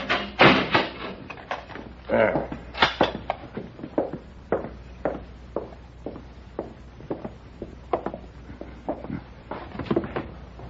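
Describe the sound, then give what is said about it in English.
A jail cell door is shut and locked, with a loud cluster of clunks and rattles at the start followed by many lighter knocks and clicks spaced irregularly. “All right, Paladin, but I'll have to lock you in.”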